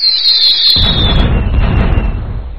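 A mind-blown explosion sound effect fires from a soundboard button: a high whistle slides slowly downward, then a loud boom breaks in and leaves a rumble that continues to the end.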